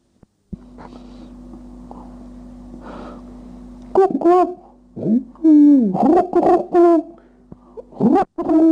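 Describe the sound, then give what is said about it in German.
A man imitates pigeons cooing with his voice: a string of loud, throaty coos with swooping, rolling pitch, following a few seconds of steady low hum. “Auch die Stimmen der Tauben konnte der Herr Professor gut nachahmen. Herr Professor, wie machen's die Tauben?”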